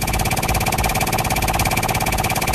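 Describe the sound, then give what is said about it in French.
A game wheel spun on a radio show, giving a rapid, even ticking rattle that runs loud and unbroken throughout, with no voices. “on va tourner la roue des jeux.”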